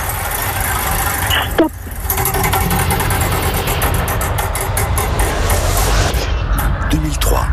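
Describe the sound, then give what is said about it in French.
A game show time wheel spinning, giving a dense, continuous ticking clatter that slows toward the end, with a voice over it. “Je lance la roue du temps et vous me dites stop quand vous le souhaitez,”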